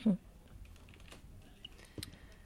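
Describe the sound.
Soft tapping on a computer keyboard while writing in a chat, with irregular light clicks at a low level.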